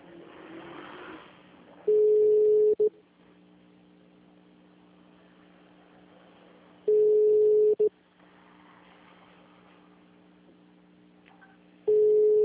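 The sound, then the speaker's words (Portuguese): Ringback tone of a telephone call being placed: three long, steady, mid-pitched tones, each lasting about a second, spaced roughly five seconds apart. A faint low hum fills the gaps between them. “Chamando agora.”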